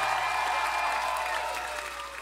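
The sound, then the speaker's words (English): Audience applause for a drummer who is a finalist, a steady wash of clapping from a crowd that holds level and then tapers slightly toward the end. “Give it up for our drummer, Mr. John Worster.”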